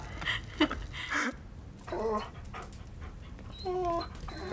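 A dog pants beside a fireplace in a few soft, breathy bursts, and a short, high whimper comes near the end; all of it is quiet.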